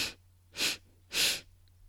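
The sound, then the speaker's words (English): Short, quick sniffing inhales taken through the nose during a guided breathing exercise, three soft breathy bursts in steady succession, faint and with no talk. “Last bunny breath. Ready? Inhale.”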